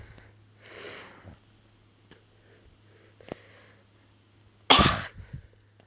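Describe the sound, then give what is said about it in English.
Throat clearing in a few separate harsh, rasping bursts with quiet gaps between them. The loudest and longest comes near the end and is followed by smaller rasps. “Throat clearing is awful.”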